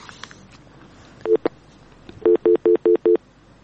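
Telephone line ringing as a caller's call connects: a short pair of electronic tones, then five evenly spaced, loud beeping bursts in a steady rhythm.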